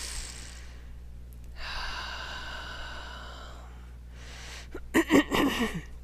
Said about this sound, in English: Nice deep breath here, please.